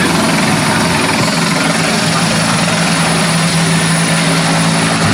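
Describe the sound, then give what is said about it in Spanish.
Firefighting aircraft pass overhead during a wildfire: a loud, continuous rotor and engine drone with a steady hum that fills the whole clip. “están pasando, ¿no?, varios medios aéreos y por eso la comunicación a veces se ve entorpecida”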